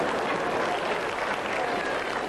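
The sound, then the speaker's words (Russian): Audience applause during a talk, an even, dense wash of many hands clapping at a steady loudness throughout. “Вот мне нравится, что вы аплодируете”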